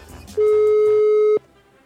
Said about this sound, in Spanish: Estamos marcando.